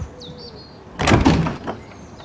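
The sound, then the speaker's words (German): A door sounds in a brief, loud rattling burst about halfway through, after a quiet stretch with a faint high squeak near the start. “Ist da etwa jemand an der Tür?”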